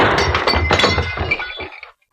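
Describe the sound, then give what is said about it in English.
A glass light bulb shattering as it is shot out, a dense burst of breaking glass with bright clinks and tinkles that thins out and falls silent after about two seconds. “I'll shoot the light out, then rush over and open the door.”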